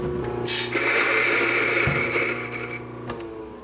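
Coffee beans, Geisha among them, being ground for a cupping: a loud, steady, gritty whir with a high whine runs throughout and then eases off near the end.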